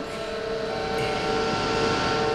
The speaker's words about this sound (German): Ich verschließe die Luke. So, alles klar. Ich starte den Motor. Ich übernehme die Lenkung.